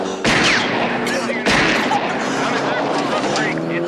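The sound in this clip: Gunfire sound effect: two sharp, loud blasts about a second apart, each followed by dense, rolling noise that stays loud until the end.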